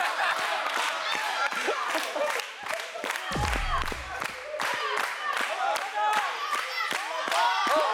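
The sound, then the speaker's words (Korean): Audience clapping at a stage performance of tricks, with many sharp claps in a busy, uneven patter under ongoing talk, interrupted by a brief low thump partway through. “와, 박수치기.”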